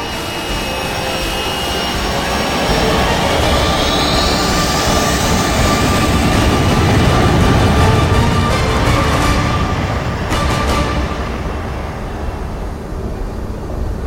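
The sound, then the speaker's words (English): Aircraft engines roar as the craft lifts off and ascends over an airstrip. A loud, sustained roar swells toward the middle and eases near the end, and a thin rising whine appears early on. “Tacker ordered the pilot to lift. The pilot acknowledged, and Vulture 7 ascended over the airstrip.”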